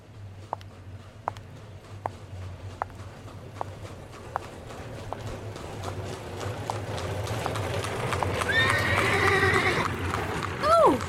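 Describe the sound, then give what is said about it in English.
Hooves of a horse-drawn carriage clip-clop along a street beside an old Qajar-era hotel in Iran. A steady run of sharp knocks gives way to a rising wash of street noise. “Oh! I got scared! Oh! Suppose the carriage driver was in a rush. I'd better walk in the sidewalk. Only God knows how many carriages are driving around here.”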